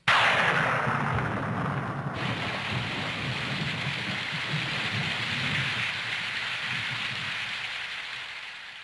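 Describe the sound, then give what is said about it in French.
Heavy rain pours down in a graveyard, a dense, continuous hiss that starts abruptly and stays at an even, loud level before easing slightly at the end. “Could be raining.”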